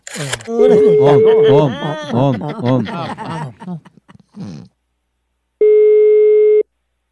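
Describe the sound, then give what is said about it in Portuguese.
A telephone line tone sounds while a call is placed: after a stretch of talking, one steady mid-pitched tone plays alone for about a second. “Vou ligar agora pra Clabiano”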